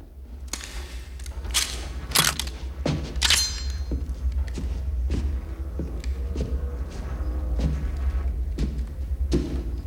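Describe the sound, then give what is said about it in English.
Gunshots fired from a stairway during a shootout: several loud, sharp cracks clustered in the first few seconds, then fainter reports over a steady low rumble. “He unloads. McCool shoots from the stairs.”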